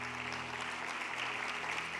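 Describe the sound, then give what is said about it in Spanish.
Church audience applause, a continuous even patter of many hands clapping over a low steady hum, moderately loud and unbroken throughout. “Dale un aplauso a Él si lo crees.”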